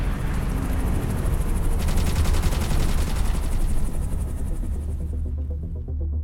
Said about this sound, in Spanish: ¡Nos disparan! ¡Cúbrete!